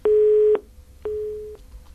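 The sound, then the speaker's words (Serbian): A telephone busy signal follows a call line dropping: two steady, mid-pitched beeps separated by a short gap, the first loud and the second fainter, over a low background hum. “Telefonska linija je u prekidu.”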